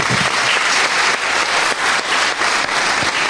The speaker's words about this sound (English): You're getting a lot of clapping.